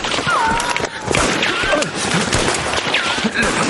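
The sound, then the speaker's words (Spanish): Soldiers fire guns at officers fleeing down a ravine in a war drama, a loud, busy barrage of many sharp shots with whining, swooping tones sliding through it. “Los soldados disparan contra los oficiales mientras estos huyen por el barranco. Los soldados disparan contra un oficial y este cae al suelo.”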